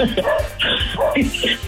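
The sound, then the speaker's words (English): Barking from a worked-up dog, a few short, sharp barks and yips in quick succession, fairly loud throughout. “We got your dog all worked up.”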